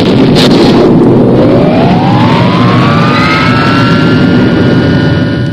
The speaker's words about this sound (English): Fire thrusters.